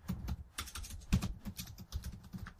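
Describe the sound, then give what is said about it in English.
Computer keyboard typing, a quick run of many light key clicks in an uneven rhythm, fairly quiet and with no voices. “I'm going to type it in the chat.”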